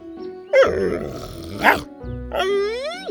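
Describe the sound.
A dog whines in a few drawn-out tonal cries, the last one long and wavering upward in pitch, over a low steady hum.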